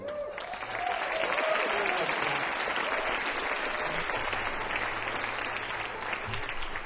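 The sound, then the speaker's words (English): An audience applauds to welcome a performer, a guitarist and singer, with clapping that swells within the first second and then continues as a steady, full wash to the end. “Make welcome, if you will, Mr. Dudley.”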